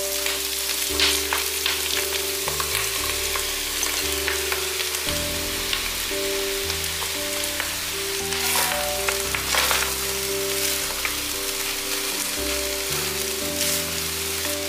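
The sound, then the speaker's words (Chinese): Dried tofu and soy mince stir-fry in a pan, giving a steady loud sizzle with crackling spatters and scraping stirs that carry on throughout. “大约炒了三分钟，可以把豆干和大豆酥肉末加进来。”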